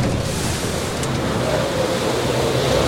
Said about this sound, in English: Oh, man, that water getting choppy.